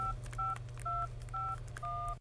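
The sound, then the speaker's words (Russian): A mobile phone number is dialed as a steady sequence of short, evenly spaced keypad tones, clear and alone with brief gaps between them. “Затем достал мобильник и набрал номер.”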